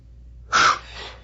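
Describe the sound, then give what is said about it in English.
One sharp, forceful breath bursts out on its own during a guided breathing exercise, followed by a softer, breathy release that fades quietly. “inhaling all the energy into the heart and sharply exhaling”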